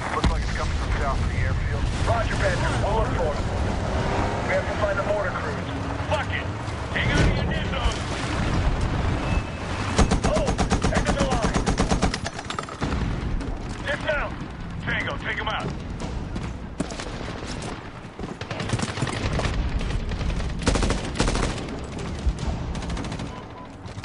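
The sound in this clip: Gunfire sprayed wildly in a video game while driving, with shots ringing out in rapid, dense bursts nearly throughout and a player's voice talking over the shooting.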